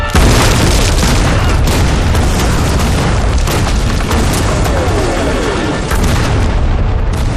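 Artillery shells explode during a bombardment in a loud, dense, continuous roar of blasts and rumble that fills the whole stretch without a pause.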